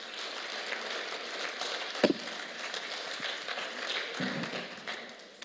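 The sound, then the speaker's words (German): An audience at an audience gathering applauds to welcome a guest speaker, with dense, continuous clapping that holds at an even level and tapers off near the end. “Und deswegen darf ich euch ganz herzlich um einen Applaus bitten für unseren Gastsprecher, das ist der Matti Krebs aus der Gemeinde in Krefeld.”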